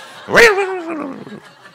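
An old dog yelps after being struck with a stick: one sharp, loud cry that slides down in pitch into a drawn-out whimpering whine, then fades away.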